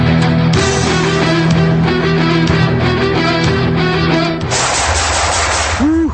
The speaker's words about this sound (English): Nice shooting.